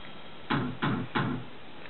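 Three firm knocks on a door, evenly spaced and of similar loudness, with no talk.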